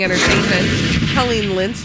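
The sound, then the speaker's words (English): A rocket launch sound effect of blasting off into space: a loud, continuous rumbling roar that fills the whole clip, with a person talking over it. “That's the sound of me shooting off into space.”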